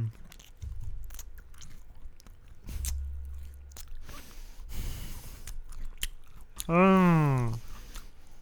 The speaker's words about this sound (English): Pass me over one of those crunchy hot dogs. Mmm. That tastes good.